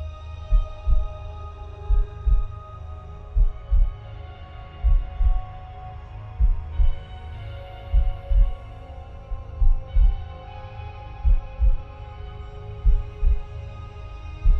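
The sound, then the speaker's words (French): A heartbeat sounds as low, muffled double thumps that repeat in a slow, steady rhythm throughout, over a faint soft hum. “Concentrez votre attention sur la région de votre cœur. Ressentez les battements.”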